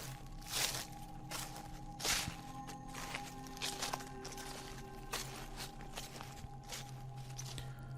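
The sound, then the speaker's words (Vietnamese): Footsteps crunching over rotten branches and dead leaves outside a building: a few faint, dry rustling steps, spaced irregularly, over a quiet steady hum. “Thì ở bên ngoài có tiếng bước chân dẫm lên cành lá mục loạt xoạt vang lên.”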